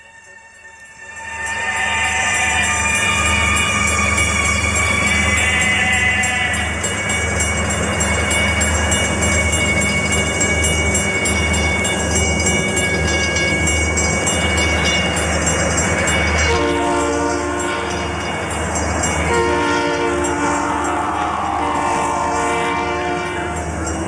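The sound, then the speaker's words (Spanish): A train runs along railway tracks with a loud, sustained rumble and rattle for the whole stretch. Steady horn-like tones join in during the latter part. “Escuchó allí el tren exactamente 2 minutos después que nosotros lo escuchamos en el empalme de Copley, 45 kilómetros de vías más allá.”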